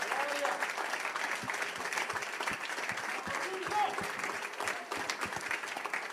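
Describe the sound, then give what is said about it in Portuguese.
A church audience applauds, many hands clapping in a steady, continuous patter with voices mixed in. “Então vamos dar uma salva de palmas bem forte a Deus, porque Ele merece também.”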